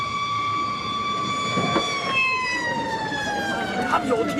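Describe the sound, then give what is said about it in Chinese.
Police car and fire engine sirens arriving, a loud, sustained wailing tone whose pitch slowly falls, layered over a rumbling background. “这下好了，警察来了。哎呀，真行！哎呦，可有救雷？消防车也来了。”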